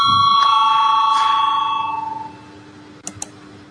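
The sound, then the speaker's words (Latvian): A bell rung to call a vote in a parliamentary session gives a loud, sustained ringing tone that fades away over about two seconds, followed after a pause by two short, sharp clicks. “Lūdzu zvanu”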